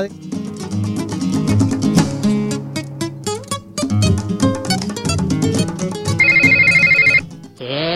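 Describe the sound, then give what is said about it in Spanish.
A telephone rings with a brief, rapid electronic trilling ring that starts suddenly near the end, after several seconds of music, as a phone call comes in. “te está sonando el teléfono y no te diste cuenta.”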